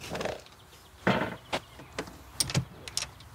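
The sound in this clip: A door of a rented campsite cabin is opened: a few sharp clicks and knocks, moderately loud, spread over a few seconds with no talk.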